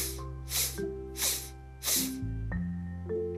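A few short, breathy inhales, like sniffs, come during a guided breathing exercise. Soft sustained musical tones play steadily beneath them.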